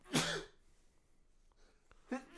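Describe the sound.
Sneeze set off by hops getting into the nose while tasting a West Coast beer: one sharp, breathy nasal burst, then near quiet, with a second short burst starting right at the end. Faint overall.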